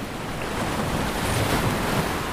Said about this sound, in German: Das Holz ächzte im Wind und die Segel schlugen leise gegen die Masten. Doch was Henny am meisten erschreckte, war das Meer.